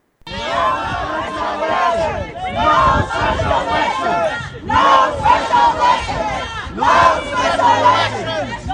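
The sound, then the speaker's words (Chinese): Rival crowds at a rally over a recall in Alameda County shout slogans in loud, rhythmic chants. Massed voices rise in several repeated bursts, each separated by a brief lull. “这个呢就是双方在呼喊口号时候的一个声音哈。”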